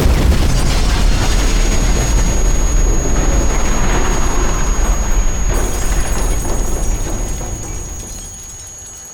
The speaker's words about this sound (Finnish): Det hörs en kraftig smäll. En boll av starkt ljus syns en bit ovanför marken. Tryckvågen får folk att falla omkull och fönster att splittras.